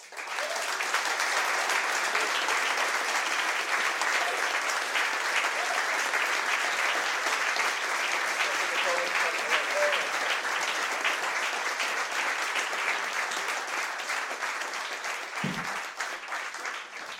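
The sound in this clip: An audience applauds to welcome a guest with a dense, steady clapping that holds at an even level for the full stretch and eases slightly near the end.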